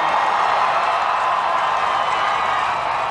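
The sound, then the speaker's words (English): Young pilgrims cheering Pope Benedict XVI at Barangaroo, Sydney, during World Youth Day 2008, a steady, dense roar of crowd noise with no breaks. “and upon arriving, the cheers of the young pilgrims shook the whole city.”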